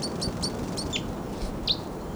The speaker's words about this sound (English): Birds may be coming down. Oh, there they go. Well, here they come.